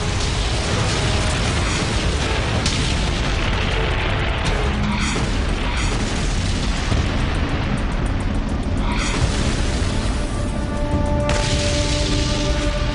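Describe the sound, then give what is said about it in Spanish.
Tank guns fire and shells explode in battle at Kursk: a dense, loud, continuous roar of rumbling noise broken by several sharp blasts. “Los tanques avanzaban unos contra otros disparando. Los artilleros me dijeron más tarde que solo vieron muros grises y que no paraban de disparar y disparar.”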